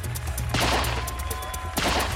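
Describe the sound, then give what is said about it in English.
Gunfire rings out at an open-top presidential limousine in a Texas motorcade entering Dealey Plaza: a few sharp, loud blasts, each followed by a rough, echoing burst of noise. “shots ring out.”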